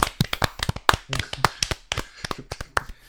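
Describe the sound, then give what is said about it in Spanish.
Sharp, scattered hand claps from people applauding public health workers at eight in the evening, irregular and uneven rather than a dense ovation, with many distinct crisp snaps across the span. “Yo propongo, si os parece bien, dedicarles un aplauso a nuestros sanitarios y a nuestros médicos.”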